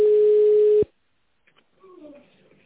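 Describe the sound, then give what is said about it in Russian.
A single steady telephone tone on a call to a company line, loud and medium-low, holds for under a second and cuts off. After a pause, faint speech follows. “Sorry, that station is busy.”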